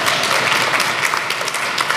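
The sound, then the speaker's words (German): Hearty audience applause at a poetry slam held during a human rights symposium, a dense, bright clatter of many hands that stays loud and steady for about two seconds. “10 Punkte Applaus nochmals für die Poets und einen kräftigen 10 Punkte Applaus für die Lisa”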